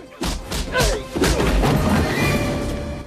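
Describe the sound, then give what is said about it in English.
Heavy punches land in a fistfight as a man is struck repeatedly in the face until he drops to the floor: a few loud, crashing thuds and whacks in quick succession over a dense, noisy background. “Regis has to punch him repeatedly in the face before he drops.”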